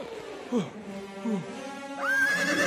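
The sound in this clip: A horse neighs as it rears: two short, low snorting calls, then a long, loud, high whinny that holds to the end.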